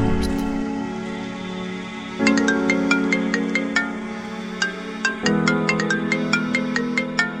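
A mobile phone ringtone plays a repeating melodic tune of bright plucked notes over sustained chords, loud and continuous, with the pattern restarting twice.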